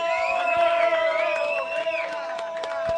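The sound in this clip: An audience hollers and whoops together at a live event in Nashville, Tennessee. The raised voices form a loud, sustained roar that lasts throughout, with several high yells standing out above the din.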